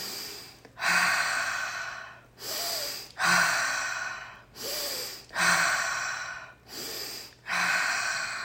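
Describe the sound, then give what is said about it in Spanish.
Breathing in a continuous circular pattern, drawing air in through the nose and pushing it out through the mouth. Airy, rushing breaths alternate between longer and shorter ones in a steady series with no pauses, and no voices are heard. “Y vas a empezar a inhalar por la nariz y exhalar por la boca en forma circular, o sea, sin parar.”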